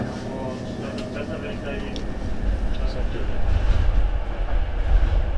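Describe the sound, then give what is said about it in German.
A Deutsche Bahn train runs on its rails shortly before reaching Hamburg Central Station. A steady low rumble with a faint rattling texture grows louder in the second half. “Ladies and gentlemen, next stop in a few minutes, Hamburg Central Station. All connection trains uh, will be reached. Thank you for choosing Deutsche Bahn today.”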